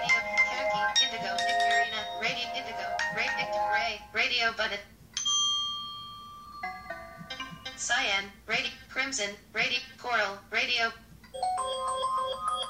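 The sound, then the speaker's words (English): Phone ringtones previewed one after another on a settings screen: several short, bright, melodic chime and bell snippets, each cut off and replaced by the next, with speech-like passages in between. “let's say I wanted to set the ringtone. Indigo.”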